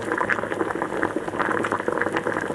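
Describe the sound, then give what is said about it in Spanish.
Stew bubbles steadily in an uncovered cooking pot, a dense, continuous burble of popping bubbles at an even level throughout. “te voy a invitar a que levantes la tapa del puchero y veas lo que hay.”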